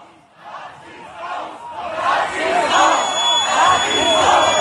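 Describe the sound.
Shouts and chant-like calls of a crowd of neo-Nazis forming up and marching, a dense mass of voices rising in rhythmic bursts and growing louder and more sustained toward the end.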